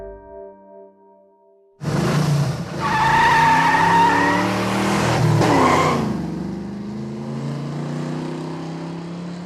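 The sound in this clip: A car speeds away fast with squealing tyres and a roaring engine. The sound bursts in loudly after a quiet opening and carries on strongly to the end.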